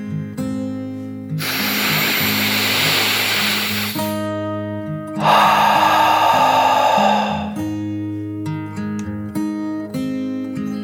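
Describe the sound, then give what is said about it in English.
A dragon's deep breath, drawn in and then let out: two long, rushing swells of airy noise, the second a little louder, over a steady bed of music. “To steady his nerves, Dreeven took a deep dragon breath. In and out.”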